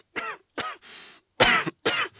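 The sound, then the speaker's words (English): A man with a cough hacking in a series of harsh, voiced bursts, about four strong coughs with a softer rasping breath between them, fairly loud and alone. “Sorry, he's got a cough.”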